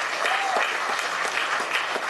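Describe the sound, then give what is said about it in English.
An audience applauds after a first-place award is announced at an art and story awards event. The clapping is dense and steady throughout, with no pauses. “Please, everybody, give him a round of applause.”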